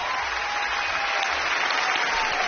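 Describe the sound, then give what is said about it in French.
A studio audience at Studio 104 of the Maison de la Radio et de la Musique rises in a standing ovation, dense sustained applause at an even, loud level throughout. “Et le public ici, au studio 104 de la Maison de la Radio et de la Musique, s'est levé. Une ovation pour Stéphane Escher.”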